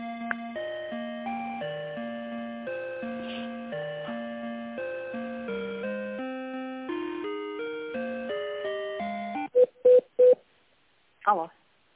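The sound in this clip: A telephone call being connected on the line: an electronic tonal melody plays for about nine seconds, followed by a couple of short, sharp beeps and then a brief burst of sound.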